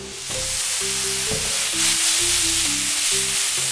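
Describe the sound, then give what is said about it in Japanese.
Soy sauce sizzles in a pan, a tablespoon added to minced garlic and pork cooking in sesame oil. A loud, steady frying hiss continues without a break. “ここにニンニクのみじん切りが入ります。 あ、ニンニクもいい香りしてきましたね。はい、そしたらここにお醤油を大さじ1杯。”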